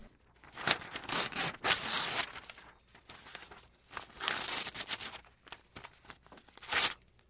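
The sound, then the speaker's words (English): A paper letter being torn to shreds: repeated rasping rips in uneven bursts, some long and some short, with crinkling and rustling between them. “You're tearing it to shreds.”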